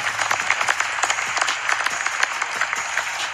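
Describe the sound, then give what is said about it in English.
A recorded applause sound effect plays from a device. It is thin, modest clapping that patters evenly for about three seconds with no voices. “that's the weak applause.”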